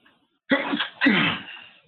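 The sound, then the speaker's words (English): A single human sneeze: a brief voiced lead-in catches, then a loud, sharp burst trails off quickly, with a quiet moment before it. “I want to sneeze, but I guess people do realize that I'm human. So sometimes humans sneeze, and I happen to be a human.”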